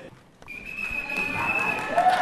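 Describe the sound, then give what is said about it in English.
A whistle blown by someone riding in on a scooter: one long, high, steady blast lasting over a second, over a bed of background noise. “rode in on a scooter blowing a whistle”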